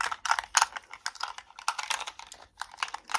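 Animal picture cards shuffled by hand: a dense run of crisp, papery flicks and taps in uneven bursts, fairly soft, with no talk.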